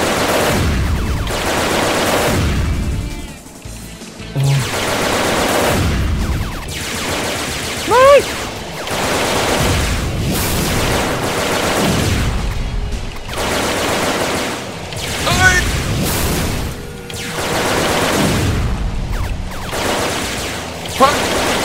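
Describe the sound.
Video game gunfire rattles in continuous rapid bursts that pulse steadily without a break, while players exclaim and talk over the shooting.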